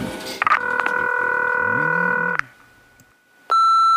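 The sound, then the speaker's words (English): Telephone keypad tones as a number is dialed: a long, steady electronic tone, a short quiet gap, then another tone that starts abruptly. “I just gotta dial it here. I'm gonna see if I can get him on the line. I hope there's no hard feelings. You know, let's dial the number.”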